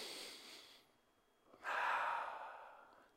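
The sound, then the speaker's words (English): A group of people breathe in deeply together on a count, a soft airy rush of breath. A faint breathy sound fades out, then a fuller, louder inhale swells and slowly tapers off, quiet overall. “why don't we take a deep breath all together, okay? On the count of three, we're going to just breathe in deeply.”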